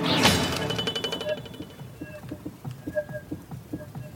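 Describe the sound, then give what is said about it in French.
Film sound effect of a sword striking a wall, a sharp bright metallic impact followed by a wobbling sheet-metal warble that pulses and rattles in a decaying series of ringing tones. “lorsque l'épée tape au milieu, je vais vous le faire réentendre, on entend une espèce de bruit très caractéristique, un goulou de tôle qui ondule.”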